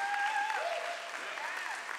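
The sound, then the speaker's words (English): Polite applause from a church audience for its worship team. Steady, moderate clapping with voices rising over it. “That's a golf clap.”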